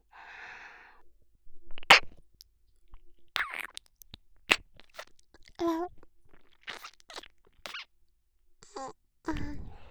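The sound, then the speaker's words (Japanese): Wet mouth sounds of someone licking an ear come as many short, irregular smacks and clicks in scattered bursts. A few soft vocal murmurs sit between them over a quiet background. “今度はこっちの耳を舐めてあげますね。”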